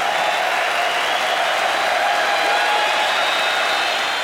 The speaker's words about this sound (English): Give it up for the Vietnam veterans in the house.